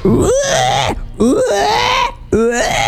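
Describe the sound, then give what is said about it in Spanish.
A person tries to imitate a pig in an animal-imitation contest. Three loud, strained, moaning vocal bursts with wavering pitch come one after another, split by brief pauses. “Es muy difícil hacer el cerdo, chico.”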